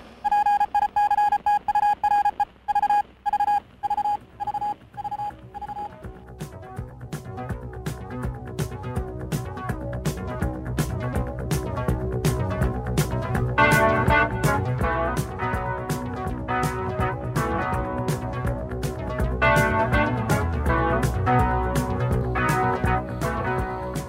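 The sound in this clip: Theme music for an astronomy news segment opens with a string of rhythmic electronic beeps. Full instrumental music with steady percussion follows and grows louder and denser.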